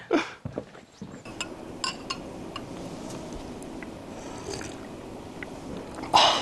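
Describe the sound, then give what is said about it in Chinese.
Bowl scraped and clinked before eating at a Salar banquet: several short, bright clinks and scrapes over a steady background hiss. “吃饭的前面先刮了一下碗子，其实撒拉加宴首先就要刮一下碗子， 生活仪式感的一部分。”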